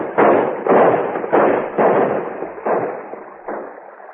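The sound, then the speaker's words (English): Men in canoes fire guns in a celebratory volley from the shore, six muffled, band-limited booms at uneven intervals, each trailing off in a short decay, with no voices. “the men fired off a volley of shots in their exuberance over seeing each other.”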